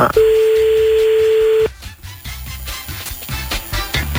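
A telephone number being dialed: a loud, steady, single-pitch line tone holds for about a second and a half, then cuts off into muffled clicks and handling noise.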